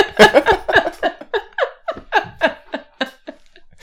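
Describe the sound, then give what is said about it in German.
A voice speaks while inhaling, as if talking backwards. Many short, breathy syllable bursts come in an uneven rhythm, sounding strained and laugh-like. “Ich hatte die spontane Idee, einfach mal rückwärts zu reden, also quasi beim Einatmen”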